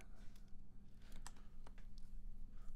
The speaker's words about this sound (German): Da, wird halt, da wird im Hintergrund gegoogelt.